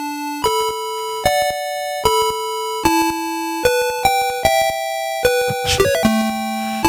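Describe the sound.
Chiptune music from the NES game Fester's Quest, an Addams Family title: bright square-wave notes stepping through a melody in a steady rhythm, with a short noisy burst near the end.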